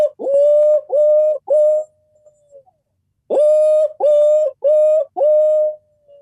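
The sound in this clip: A barred owl calls in a series of loud, hooting notes. Three notes come first, then after a pause four more follow, the final one drawn out and trailing off.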